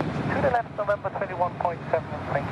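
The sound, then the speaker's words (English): A Qantas Airbus A350 long-haul jet touches down at Melbourne Airport after a 19-hour non-stop flight, its broad, steady engine roar rumbling beneath talk throughout. “After 19 hours of non-stop travel in the sky, touchdown finally at Melbourne Airport.”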